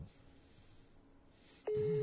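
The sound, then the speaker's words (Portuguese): Ringing tone of an unanswered mobile phone call: after faint background hiss, a steady electronic tone starts abruptly near the end and holds, loud and alone. “Não vai atender, não vai atender. Mas às vezes ele não tá com o celular perto, calma.”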